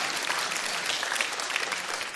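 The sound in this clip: Applause from a church audience, a dense, steady patter of many hands clapping at once that holds at an even level for the full two seconds without a break.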